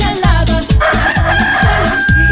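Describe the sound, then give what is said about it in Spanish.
A rooster crowing at four in the morning on a rural farm: a loud, sustained, strained call with a steady high tone, heard alone with no talk. “¿Timbre de qué? Era el gallo que cantaba”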